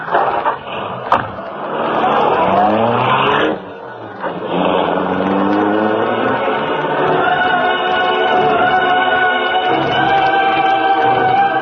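A car engine roars as the vehicle pulls away, a loud, steady rumble with shifting tonal layers that briefly dips and then holds strong to the end.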